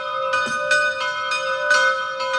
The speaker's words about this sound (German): Das sind die Glocken von heute.